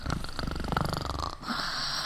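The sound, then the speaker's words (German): Snoring from a person in bed: a rough, buzzing, rhythmic rattle that lasts over a second, then a softer, breathy hiss. No one speaks. “du schnarchst.”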